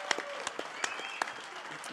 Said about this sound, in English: How about a big, loud welcome and a big hand for Cordarrelle Patterson, everybody.